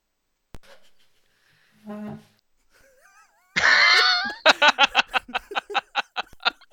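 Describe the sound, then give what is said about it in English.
A chair gives a squeaky, creaking burst after a few faint scrapes, then a rapid, regular run of short squeaks that gradually weakens. “I'm just going to assume that was a chair and not someone farting. It could be both, but you've called it chair, so we have to assume it's a chair. It's just called chair.”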